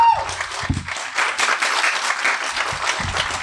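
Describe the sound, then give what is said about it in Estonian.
Audience applause at a live event, a dense, steady wash of clapping that holds at an even level for the whole stretch, with no pauses and no voices standing out above it. “teeme endale ühe suure aplausi”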